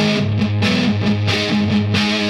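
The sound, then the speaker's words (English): Distorted electric guitar played through a heavy metal distortion effect with clipping diodes, gain set about halfway for a crunchy rhythm tone: dense, buzzing sustained chords that change a few times at steady, loud volume. “the heavy metal distortion has clipping diodes. Turn the gain down to about halfway”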